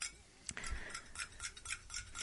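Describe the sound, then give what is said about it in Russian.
Hand whisk beating a cold paste into boiling milk, made without a mixer. Faint, quick scraping and clinking strokes repeat in an uneven rhythm. “Возьми венчик, вот у нас сегодня нет миксера, и венчиком, пожалуйста, взбей.”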